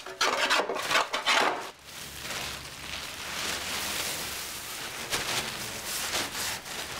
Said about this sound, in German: Die Männer schneiden eine Schablone für den Rumpf der Kleone. Wo gesägt und gehobelt wird, fallen Späne.